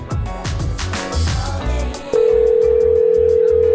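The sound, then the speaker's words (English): A telephone dial tone, a steady, loud, unbroken hum, starts abruptly about two seconds in and runs to the end, after a dense stretch of mixed other sound. “I'm calling Teresa if her phone still works.”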